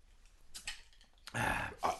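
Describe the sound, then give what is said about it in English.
Opening a bottle of alcohol-free beer: a faint click is followed by a sudden hiss lasting nearly half a second, then one more short burst of fizz. “And I probably should have opened this alcohol-free beverage as well. No, but we have the smiley face to open the beer.”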